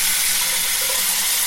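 Water runs steadily from a tap in an even, unbroken hiss of flow that stays constant throughout, with no voices over it.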